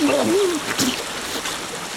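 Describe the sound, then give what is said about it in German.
Dammed-up water rushes through an opening into a zoo as a loud, continuous roar of surging water, with a brief voice audible at the start. “Das viele gestaute Wasser schießt mit einem Riesenschwung durch die Öffnung hinein in den Zoo.”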